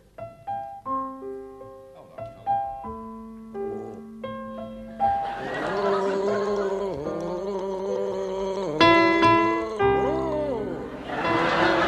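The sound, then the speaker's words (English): A man gargling the tune of Brahms's Lullaby in a panel game contest: a short run of clear, spaced notes comes first, then a loud, wavering, bubbling voiced tone carries the melody through to the end. “Let's start with you, Willie Rushton. Now, will you gargle Brahms's Lullaby?”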